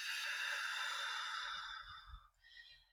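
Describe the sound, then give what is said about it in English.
A deep breath is blown out as one long, airy exhale that holds steady and then fades away, followed by a few faint low rustles. The sound is fairly quiet and no one speaks. “take a deep breath in from the bottom of your feet and blow it out, pulling that belly in, and another deep breath. And blow out.”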